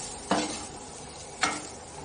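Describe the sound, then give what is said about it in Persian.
Stirring raisins, spices, quince and carrots frying in a pan: two distinct scrapes of a utensil stand out over a soft, continuous sizzle. “از این طرفم کشمش، ادویه ها و به و هویج با هم دیگه دارن تفت میخورن و تماشون رو به هم دیگه میدن. اینها رو هم با هم مخلوط میکنم.”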